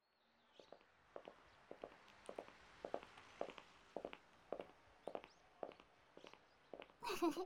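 Footsteps of two people walking side by side on the way to school: many even, rhythmic footfalls at a steady pace, fairly soft, with a brief louder rustle at the end.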